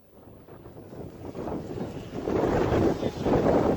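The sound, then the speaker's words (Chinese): Wind blowing across a desert, a broad, rushing hiss that grows steadily louder and gusts more strongly toward the end, with no voices. “你看到那听到那个声音吗？那个是刮风的声音，刮风的声音啊，你会听到。”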